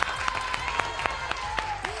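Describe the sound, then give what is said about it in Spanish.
Applause from a student's classmates during a school competition, heard as a fairly faint, steady run of claps in a quick even rhythm with a thin tonal sound running beneath. “además tiene este súper aplauso de todos sus compañeros”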